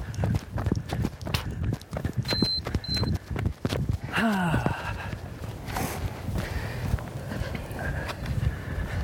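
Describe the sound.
Running footsteps outdoors from people jogging together on a long run, a steady rhythmic patter of footfalls mixed with conversation and ambient noise.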